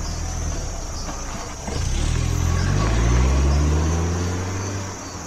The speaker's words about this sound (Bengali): আর গাড়িও রওনা দিল বিলিতি ইঞ্জিনের মৃদু গম্ভীর শব্দ তুলে।